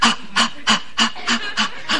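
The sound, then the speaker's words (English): Deep breathing is demonstrated in a childbirth breathing class: seven quick, evenly spaced breathy bursts like panting, loud and rhythmic with no talk. “you're going to guide your partners through the breathing like this, remember? Inhale, exhale.”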